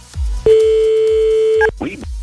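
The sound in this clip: A telephone line tone sounds as a call is placed to a radio listener: one long, steady, mid-pitched beep lasting just over a second, followed by a short burst of voice.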